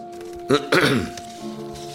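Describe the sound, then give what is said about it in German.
Someone clears their throat in two rough, fairly loud bursts, the second longer and more gravelly. A faint steady hum sits underneath. “Ja, ich höre was. Es fing an mit einem Räuspern.”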